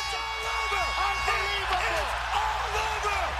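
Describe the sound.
Crowd cheering at a UFC mixed martial arts fight: a dense, continuous roar with whoops and shouted voices rising and falling above it.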